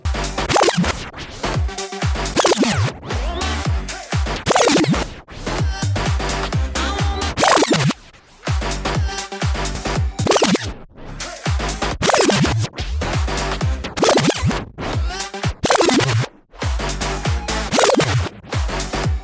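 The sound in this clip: DJ scratching on a Numark controller produces many rapid, rhythmic scratch sweeps, the record pushed back and forth in short bursts over a pounding beat, loud with a few brief pauses.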